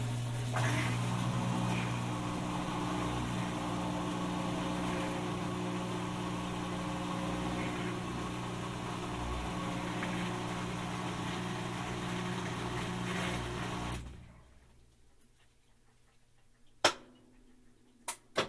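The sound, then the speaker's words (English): Washing machine spin cycle droning with a steady, loud low hum for about fourteen seconds, then winding down and cutting out, leaving near quiet with a few faint clicks. “Changing gears. That's the spin function just turning off for a little bit. I think the clothing is just being allowed to sort of drip for a moment into the tub itself.”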